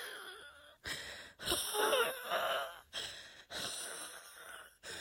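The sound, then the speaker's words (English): Faint, ragged wheezing and gasping breaths from a person panicking and struggling to breathe, coming in a few harsh, breathy rasps separated by brief catches. “Oh, I can't breathe. Oh, God, I can't breathe.”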